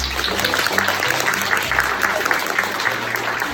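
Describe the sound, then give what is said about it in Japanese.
Applause on a Japanese talk show: steady, continuous clapping throughout, loud and even. “このコーナーの言う前に拍手が入るからちょっと止めてねって3秒前に言われたのに忘れてた。”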